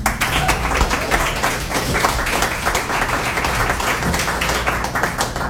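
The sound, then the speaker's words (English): Audience applause at a reading event, a dense, steady clatter of many hands clapping that holds at an even loudness for several seconds. “Let's give Joseph another hand and bring up Jane McDonald.”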